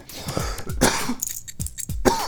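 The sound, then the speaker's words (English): A coughing fit mixed with throat clearing: several rough, breathy coughs and harsh hacking clears come in uneven bursts, some sharp and some gravelly, with no speech between them. “Excuse me for a second. Having a slight coughing fit here. I better drink some tea.”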